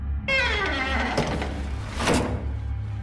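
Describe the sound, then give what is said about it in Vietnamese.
A wardrobe door swings open by itself with a drawn-out, squeaky creak of several layered tones, then a second rough scraping burst, over a low steady hum. “Sao tự nhiên nó lại mở ra thế kia? Tủ quần áo, tủ quần áo.”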